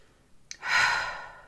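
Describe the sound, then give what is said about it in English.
One deep, breathy breath, a soft airy rush that swells and then fades away within about a second. “take 10 deep breaths. Just breathe in And let's do it one more time together.”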